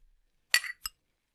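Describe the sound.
Two glass clinks from a toast with energy drinks: a bright ringing clink, then a second, shorter one moments later, both alone with no talk.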